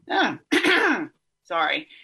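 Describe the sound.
Throat clearing in three rough, raspy bursts from someone with a frog in the throat, each loud and separated by short pauses, the last a little shorter than the middle one.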